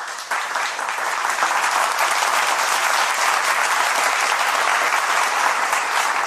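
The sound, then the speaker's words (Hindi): An audience applauds after a long, humorous lecture, with dense, steady clapping that stays loud and even throughout. “व्याख्यान बहुत लंबा और हास्य भरा हुआ था। लोगों ने खूब वाह वाह की।”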